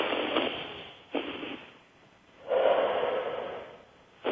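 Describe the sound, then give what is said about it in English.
Deep breaths drawn by a person: a few breathy, hissing breaths, two shorter ones followed by a longer, louder breath, with quiet gaps between them. “And breathe.”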